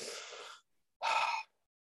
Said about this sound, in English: I breathe for me. Nice breath in.